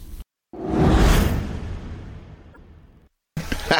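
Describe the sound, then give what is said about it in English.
A golf club swing whoosh on a golf course: a single broad rushing swish that swells quickly, then fades out over about two seconds, framed by brief silences. “Josh Allen is in a golf course, I saw. Yeah, focusing, really dialing it in, you know? Just dialing really? It in. Just focusing. Is that a celebrity classic? The swing.”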